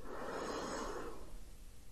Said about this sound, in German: Atme tief ein